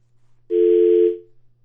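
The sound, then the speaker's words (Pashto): A single steady telephone line tone after a call is disconnected: one plain mid-pitched beep lasting under a second, with a faint low hum running beneath it. “ریحان صاحب سره تلیفوني ارتباط قطع شوی دی”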